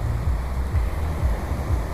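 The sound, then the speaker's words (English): Ocean surf breaking on a beach makes a low, rumbling wash, with wind buffeting the microphone. The sound swells and eases in a steady pulse, with no talking. “the ocean is very close to where I'm sitting and speaking with you. I'm on the beach.”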